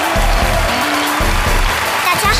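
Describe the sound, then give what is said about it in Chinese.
Audience applause welcoming a group of young poets onto a stage, a steady patter of clapping heard underneath a voice speaking over it. “掌声欢迎，欢迎你们。”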